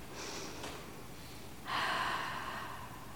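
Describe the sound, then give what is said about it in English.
Quiet breathing from a person settled into position and looking out over vast terrain: a faint inhale, then a longer, stronger breath, with no talk. “You become very aware of the sound of your own breath.”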